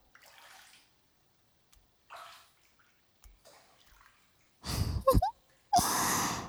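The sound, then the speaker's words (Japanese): Water sloshing in a hot bath as someone sits up, two loud splashing surges near the end following faint, breathy sounds in an otherwise quiet tub. “じゃあプロデューサー一旦腰掛けよっか。下半身お湯の上に出そう。”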